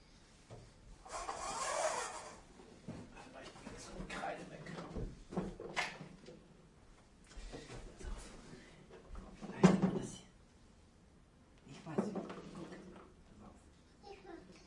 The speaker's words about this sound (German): Nochmal die Klappe aufmachen.